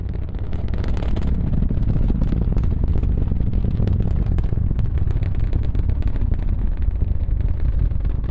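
Deep, continuous roaring rumble of a rocket engine as the Starhopper prototype lifts off and hovers about 150 feet up; a dense, steady low roar fills the whole stretch with no voices.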